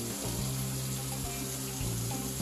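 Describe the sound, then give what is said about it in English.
Water runs steadily from a tap into a sink while someone cooks, a constant rushing hiss with a low, steady hum beneath it. “So leave this water on for a bit, people. I know it's audible.”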